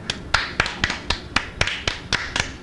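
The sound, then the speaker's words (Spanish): Hand clapping as applause for a little girl: a steady run of sharp, evenly spaced claps, heard alone without voices. “Bueno, un aplauso para ella.”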